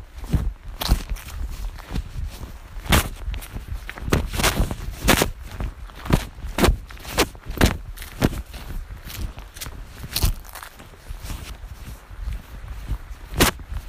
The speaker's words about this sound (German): Ich laufe und laufe. Laufe und laufe und laufe.